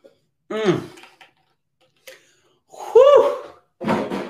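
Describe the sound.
Deep breaths from a speaker pausing mid-talk: a few voiced, gasping inhales and sighing exhales come in separate bursts with short silences between them, the last two fuller and louder.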